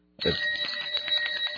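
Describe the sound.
A decorative desk bell is struck once, giving a bright, high ring that keeps sounding with a slight shimmer and barely fades.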